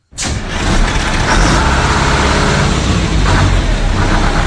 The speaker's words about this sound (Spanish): Estamos en un autobús y vamos a pedirle un ticket al conductor del autobús.